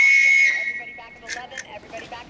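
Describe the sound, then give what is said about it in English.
A whistle blown to call a ferret hiding under a stage: one shrill, steady high tone for about half a second, then faint scattered rustling noise. “Let me try the whistle again.”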